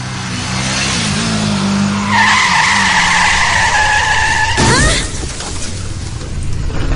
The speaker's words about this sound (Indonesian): terjadi kecelakaan motor. Jelas sekali kejadian tersebut terjadi di depan kami berdiri.